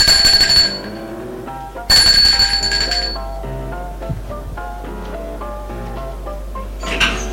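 A doorbell rings at a house where a party is underway, in two shrill bursts of about a second each, separated by a short gap. Music plays beneath the rings and continues after them.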